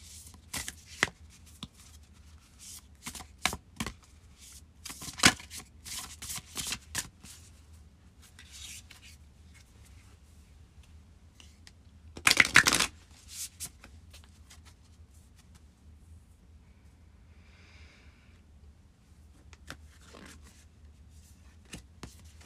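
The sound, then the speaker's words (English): Spell casting oracle cards are shuffled in a few quick, crisp riffling bursts, with a louder, denser flurry near the middle and softer rustles after it. “Okay, we're going to pull a spell casting oracle card.”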